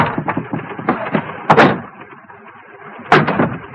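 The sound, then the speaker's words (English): A trunk is opened with a clattering rustle and two sharp, loud knocks about a second and a half apart. “they open the trunk”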